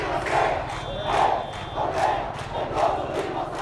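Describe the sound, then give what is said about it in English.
Protesters chant in the streets of Cairo, Egypt, against the president. The crowd's voices rise and fall in a steady rhythm of repeated surges. “This is the sound of protesters out on the streets of Egypt.”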